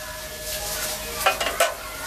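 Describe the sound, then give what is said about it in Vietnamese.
Vegetables go into a pot of boiling water during meal preparation: a steady, hissing bubble runs throughout, broken by a few quick clinks and knocks of utensils near the middle. “sắp tới giờ dọn cơm, con cho rau vào nước sôi đi.”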